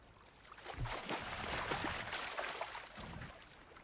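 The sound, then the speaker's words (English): Water gently lapping around a woman drifting in open water, soft low swells and faint trickling that rise and settle in a slow, quiet wash. “She spits out water as it gently laps her mouth.”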